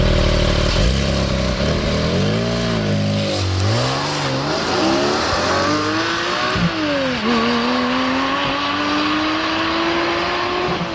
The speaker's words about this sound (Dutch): Ja, we gaan ook rijden met de Porsche 718 Cayman GT4.